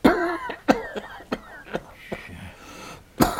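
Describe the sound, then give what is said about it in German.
A man coughs on command during a medical examination. Several sharp, rough coughs come in uneven succession with throaty breaths between, and a final loud cough follows a short pause. “Tiefer atmen. Husten.”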